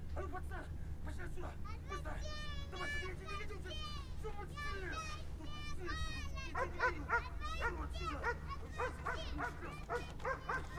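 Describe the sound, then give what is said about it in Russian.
A dog barks and yips repeatedly in many high-pitched, harmonic bursts over a steady low hum, the calls coming in irregular quick runs throughout. “Следом за ним побежала собака.”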